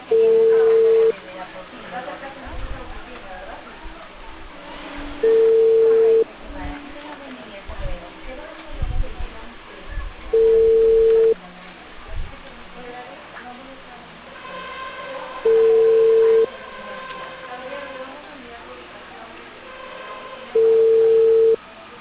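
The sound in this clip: Telephone line tones as a call transfers to voicemail: five identical steady ringing tones at regular intervals of about five seconds, with muffled voices and noise in the gaps.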